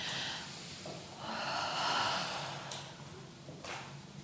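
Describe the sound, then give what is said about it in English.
A deep breath during a group breathing exercise, a soft, slow inhale that swells and then eases out, quiet and alone without talk. “Let's take one more deep breath.”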